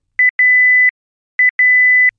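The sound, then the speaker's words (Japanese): Electronic buzzer on a cooker signalling that oil preheating is complete: two pairs of clear, steady, high beeps, each pair a short beep followed by a longer tone, separated by a brief silence. “ブザーが鳴ったら油の予熱が完了、調理ができます。”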